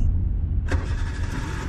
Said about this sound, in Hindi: रुचि आज भी अपनी कार से स्टूडियो जा रही थी